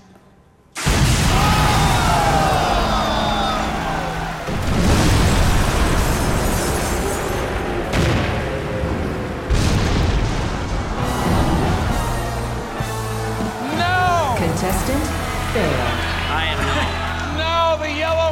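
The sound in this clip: A game-show bomb explosion effect bursts in suddenly and loud, then rolls on as a dense, sustained rumble with musical tones and excited voices layered over it.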